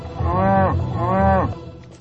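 Cattle moo in two long, loud, low calls, one after the other, with a short break between them and no talk over them.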